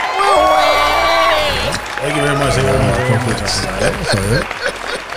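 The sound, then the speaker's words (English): Loud cheering and whooping voices in a home studio, pitches sliding up and down over a steady bed of crowd noise that lasts the whole time. “Makofi Tafadhali.”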